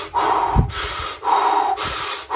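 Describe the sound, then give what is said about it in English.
Deep breathwork breaths alternate between a lower, rougher breath and a brighter, hissing breath, forming two full in-and-out cycles. The breathing is loud, steady and rhythmic, with no talking. “what you do through the breath work is you do, like I do, 30 breaths in and out, deep breaths in and out.”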